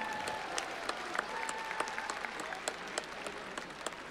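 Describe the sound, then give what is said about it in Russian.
Audience applause at a charity festival concert, a steady patter of clapping from a crowd with sharper individual claps standing out, fairly quiet and even throughout. “Ваши аплодисменты, дорогие ребята.”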